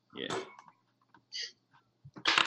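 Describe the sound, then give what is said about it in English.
Dice rolling on a table during a tabletop role-playing game: a few short, clicky rattles separated by pauses, with a brief voice at the start. “My camera's moving because my dice moved.”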